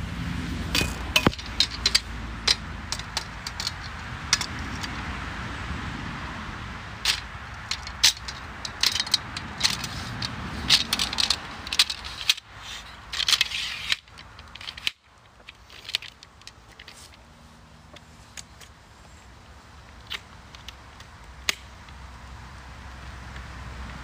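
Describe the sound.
Handling noise as a camera tripod is packed away: many irregular clicks, clacks and rustles of plastic and metal parts over a steady background noise.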